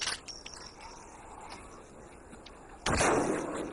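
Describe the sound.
Gunfire from a shooter burning through ammunition: faint sharp cracks at first, then one loud, sustained blast bursts in near the end.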